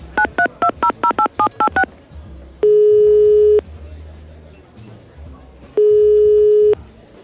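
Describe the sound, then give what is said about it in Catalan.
Telephone keypad tones as a number is dialed: a rapid run of about nine short beeps, then two long steady ringing tones separated by a pause, loud and clear over a faint low background rumble. “Espera que el truco.”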